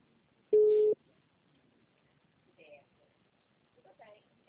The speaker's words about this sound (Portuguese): É, tá uma ligação entrando aí para o senhor, eu acho.